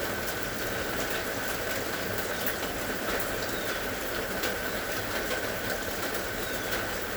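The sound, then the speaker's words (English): Steady rain falls in a continuous, even hiss of countless drops, holding at a constant level throughout with no voices or other distinct sounds. “This is a sound bath, bathing in the elixir of the sound of rain.”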